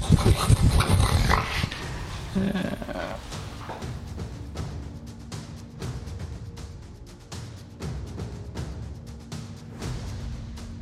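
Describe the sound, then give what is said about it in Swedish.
Dogs in a video game hit by fireball fire damage: a loud burst at the start, then ongoing growls, snorts and snarls at moderate loudness, with no talk. “Så alla hundarna bara exploderar i en grötig sörja.”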